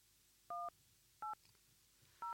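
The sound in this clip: Telephone keypad tones as a number is dialled: three separate dual-tone beeps, evenly pitched and clear, spaced out over a couple of seconds against a quiet background with no talking.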